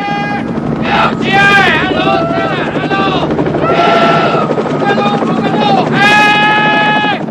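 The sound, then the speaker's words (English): A helicopter arrives: a continuous rotor rumble runs throughout while loud voices shout over it. “A chopper appears through the smoke. There it is.”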